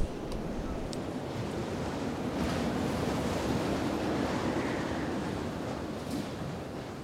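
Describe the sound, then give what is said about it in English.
Wind blows over a tent that is lying in a heap with its pegs not yet pinned down, making a steady, broad rushing noise that stays fairly constant without sharp gusts. “the wind's only blowing over the tent most of the time, so we'll be fine”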